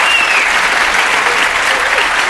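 A studio audience applauds to welcome a guest, a dense, steady wash of clapping that stays loud and even throughout.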